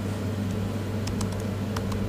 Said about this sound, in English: Okay, I'm not typing so good.